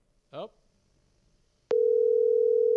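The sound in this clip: An outgoing phone call's ringing tone sounds as a loud, steady electronic tone that starts abruptly and holds to the end. It follows a single short spoken word and a quiet gap.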